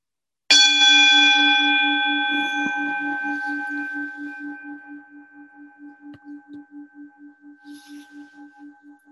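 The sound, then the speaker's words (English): A meditation gong struck once with a sharp onset, then a rich, sustained metallic tone that fades slowly over several seconds, its lingering hum pulsing in a steady wavering beat as it decays. “so as the sound of the gong fades”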